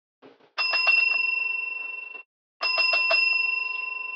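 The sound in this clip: A telephone rings inside an apartment in two loud bursts of rapid bell trilling, each about one and a half seconds long, with a short pause between them. The bell tone fades slightly during each burst, and no voices are heard.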